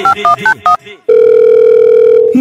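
A mobile phone call tone: after about a second of brief voiced sounds, a steady, unbroken electronic tone holds at one pitch, loud and alone, until it cuts off at the end.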